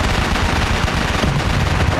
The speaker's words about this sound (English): All day and all night long, the machine gun nests flashed and fired nonstop.